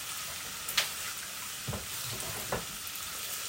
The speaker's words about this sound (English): this is probably about 300 grams maybe 250 grams of bacon that's gone into the pot